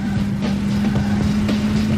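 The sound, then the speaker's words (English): Steady car engine drone from a racing video game on the N64, published by EA, holds one loud, even hum with a strong low tone from start to end, with no pauses and no voices. “Racing sound, so nothing crazy happens here.”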